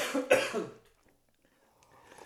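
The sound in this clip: A person coughs after chili caught in the throat: a short, harsh burst of a few rough coughs, then near silence.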